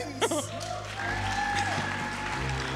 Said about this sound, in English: Big round of applause for Andrew Hansen!